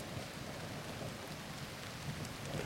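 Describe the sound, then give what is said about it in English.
Rain falling, a steady, even hiss of drops on a surface that stays constant throughout at a fairly quiet level, with no voices. “I just like listening to the rain.”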